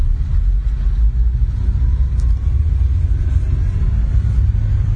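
A five-speed manual car engine held in gear gives a steady, deep rumble that stays at an even level throughout, with no clear swells in revs.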